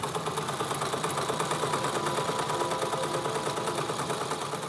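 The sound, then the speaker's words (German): A sewing machine runs steadily while stitching lavender-filled cushions made as guest gifts, giving a continuous, even mechanical whirr with a dense rapid chatter and no pauses. “Ich nähe jetzt die Lavendelkissen für die Gastgeschenke.”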